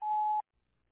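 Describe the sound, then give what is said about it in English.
A single answering machine beep signals the start of recording: one steady, clear mid-pitched tone lasting under half a second, then silence. “I cannot come to the phone right now, so please leave a message after the beep. At the tone, please record your message.”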